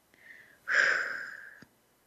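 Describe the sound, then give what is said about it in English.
One slow breath blown out through the mouth, as if through a straw, during a guided breathing exercise: a breathy rush of air lasting about a second, fairly quiet, with no talk. “Deep breath in through the nose. All the way to your toes. And then out through your mouth. Like through a straw.”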